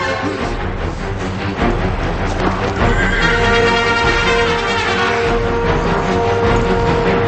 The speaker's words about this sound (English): Benjamin kneels and stabs Tavington's horse.